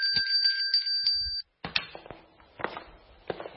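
A large bell with a small neck rings with a steady, jingling two-tone ring for about one and a half seconds, then cuts off, followed by a few scattered clanks and thuds.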